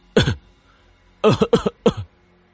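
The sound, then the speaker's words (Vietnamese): Dry, harsh coughing from a man choking on blood in his mouth: one short burst, a pause, then a quick run of several more coughs, loud and with no talk. “Câu nói kiên quyết, đáng tiếc nói đến đoạn sau lại bị sặc máu trong miệng, gặp người không ngừng ho khan.”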